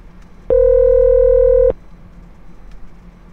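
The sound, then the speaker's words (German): An electronic telephone tone sounds as a caller rings in again: a single loud, steady buzzy beep of a little over a second, then only faint line noise. “Jetzt ruft er wieder an.”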